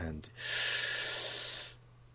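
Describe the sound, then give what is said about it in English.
A deep breath drawn in during an abdominal breathing exercise with a hand on the belly, heard as one long, steady airy hiss of about a second and a half, right after a brief bit of speech. “take in a deep breath on the count of three”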